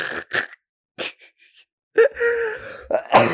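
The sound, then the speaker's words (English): A laugh breaks into a cough: short breathy bursts, then a drawn-out voiced, groan-like sound, followed by harsher rasping bursts, fairly loud and with no speech. “that laugh turned into a cough”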